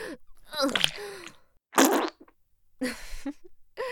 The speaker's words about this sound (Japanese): お尻の穴がひくついてすっごい音出ちゃった。